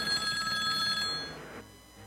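A telephone rings for an incoming call: a bright electronic ring with steady high tones for about a second, then it gives way to low hiss and noise. No voices are heard.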